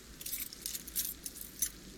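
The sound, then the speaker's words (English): Keys jangle in brief, faint metallic clinks and rattles scattered over about two seconds, above a low background rumble. “I told you I locked up already. I need to get the keys.”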